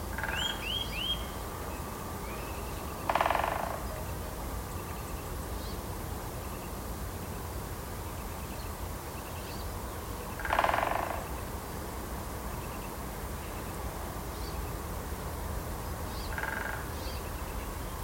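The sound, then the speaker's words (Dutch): A Eurasian nuthatch and a great spotted woodpecker call in a woodland estate in Heemstede in the morning: a quick run of high piping notes at first, then three short, sharp bursts spaced apart, the last one fainter, over a steady hiss. “de boomklever en de grote bontspecht daar in Heemstede, die zitten iedere ochtend tegen elkaar op te bieden”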